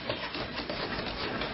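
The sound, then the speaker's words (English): A hand saw cuts through wood while many hands build a house for the homeless, its rapid, rhythmic rasping strokes continuing steadily at moderate volume. “64 hands building a house for the homeless.”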